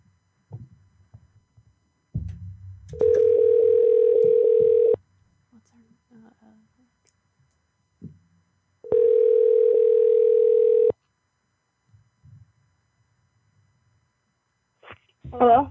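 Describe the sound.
Ringback tone of an outgoing phone call waiting to be answered: two long, steady, evenly pitched buzzing rings, each lasting about two seconds and separated by a quiet pause, with faint low noises around them.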